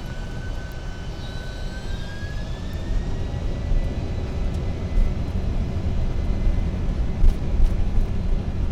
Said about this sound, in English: Takeoff power is set.